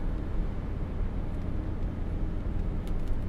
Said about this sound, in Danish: hvor nederen det er en kold efterårsmorgen og bare brænde ind mod Odense med 80 km i timen